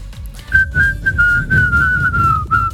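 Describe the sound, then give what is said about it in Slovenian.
A person whistles a high, sustained melody, loud and clear, with the pitch wavering slightly between notes over a low rumbling background. “Jaz nisem vedela, da on tako dobro žvižga. Ja, res je dobro. Čeprav je zelo čuden, ampak dobro. Ful visok zna žvižga.”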